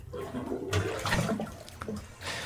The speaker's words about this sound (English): What do you say you pop the plunger on your tub, yeah. Okay. And we let these things drain while we do the credits?